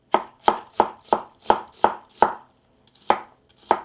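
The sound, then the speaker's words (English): Nine crisp knife chops cut through Korean gochu peppers. Seven come in a quick, even rhythm, then a short pause before two more spaced strokes, with no talk. “now I'm going to chop up some of these peppers. This is a Korean gochu pepper.”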